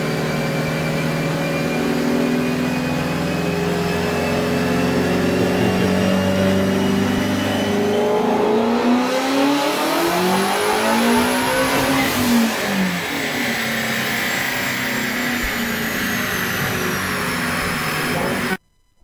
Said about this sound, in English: I'm watching the car on the dyno.